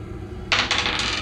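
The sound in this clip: Two dice rolled in a tabletop game: a sudden bright clattering rattle that starts partway in and keeps tumbling to the end.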